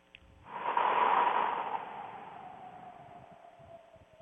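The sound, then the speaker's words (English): A deep cleansing breath taken during a guided meditation: one long, airy rush of breath swells quickly, then tapers slowly over several seconds, with no talking. “So let's take a deep cleansing breath together.”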